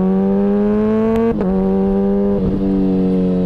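A car engine with a stock turbo hums in a steady, buzzy drone rich in overtones. Its pitch holds nearly level for the whole stretch, with two brief dips partway through.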